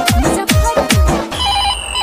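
A telephone rings loudly on its own, with rapid repeated ring bursts followed by a sustained electronic tone.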